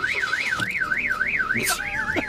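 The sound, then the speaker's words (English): A car alarm goes off as the car is started in Palestine, a loud electronic siren warbling smoothly up and down in steady, fast cycles, with a few faint clicks and knocks underneath. “Palestine, and our car alarm just keeps going off just all the time. And so I'm going to try to start the car now, and I just hopefully the alarm's not going to go off this time.”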